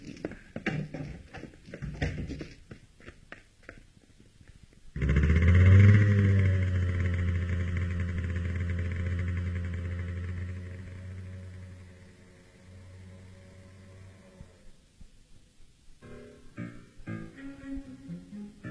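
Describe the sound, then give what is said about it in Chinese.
A motorcycle engine used as a radio drama effect for a rider vanishing into the night bursts in after clattering and voices, holds a loud, steady low drone, then fades away before talk resumes. “当刘金骑着摩托车在黑夜中消失时”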